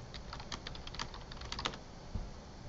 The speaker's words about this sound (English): So I type in Houston Plumber.